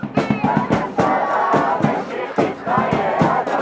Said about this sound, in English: A small but noisy group of protesters are penned behind a metal fence encircled by Israeli police near the border with Gaza, just on the other side of a dusty hill. People chanted slogans to end the war in Gaza